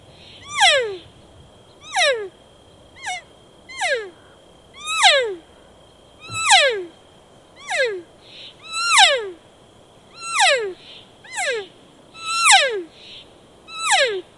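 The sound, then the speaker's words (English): Elk cow mew calls blown on an orange estrus excited mouth diaphragm reed. Many short, nasal, whiny calls fall sharply in pitch, repeating at a steady rhythm about a second apart, with no talk. “this is my orange estrus excited reed, which is a great cow call, is just kind of standard muse, just some people call them contact muse.”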